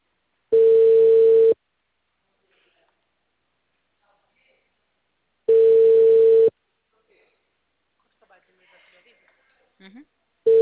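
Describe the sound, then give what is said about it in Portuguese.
A telephone line tone plays while a number that turns out to be busy is dialed: two steady one-second beeps at the same pitch, about five seconds apart, followed by a few faint clicks. “Deixa eu só fazer a ligação rapidinho. O número está ocupado.”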